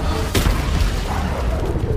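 A video game explosion: a sudden sharp burst of noise early on, followed by a sustained rumbling, crackling low roar that carries on to the end.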